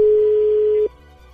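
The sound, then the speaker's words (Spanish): Ringback tone on a telephone line as a call rings through: one steady, clear beep lasting under a second, then a faint low hum. “A ver, yo entró de nuevo la llamada, a ver si contesta.”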